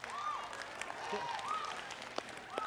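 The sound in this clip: Audience applause at a live talk: a brief burst of steady clapping that swells under a speaking voice, with the crowd noise spread broadly beneath the talk.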